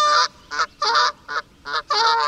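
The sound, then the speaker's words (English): Geese honking: a series of loud, nasal honks in uneven bursts, some short and some drawn out or overlapping, with no talking. “Yeah, it's geese.”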